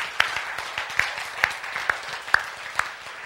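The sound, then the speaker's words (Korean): Applause from an audience at a sermon: a steady wash of claps with sharper accents falling at a regular pace about every half second, fairly faint and without speech. “자, 그럼 이때 박수 한번 칩시다.”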